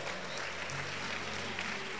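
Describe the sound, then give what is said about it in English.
A church audience claps its hands in a dense, steady wash of applause that keeps an even loudness throughout. “Clap your hands for the Lord.”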